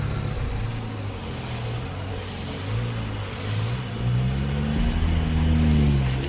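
A minibus driver revs the car engine: a steady, dense motor hum that swells in loudness and climbs in pitch toward the end.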